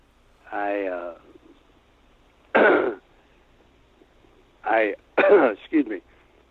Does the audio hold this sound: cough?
yes